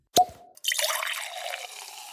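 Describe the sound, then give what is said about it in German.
A cork pops from a bottle at a celebration with one sharp, loud crack. A steady fizzing hiss follows and slowly fades over the next two seconds. “vielleicht sollten wir auch noch mal einen Korken knallen lassen dazu.”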